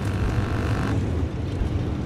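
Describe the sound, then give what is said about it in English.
A lorry passing on a wet road beside a roadside stop, throwing up spray: a steady wash of hissing noise over a low rumble, easing slightly after the first second. “They stop next to a road, and a passing lorry sends up clouds of spray.”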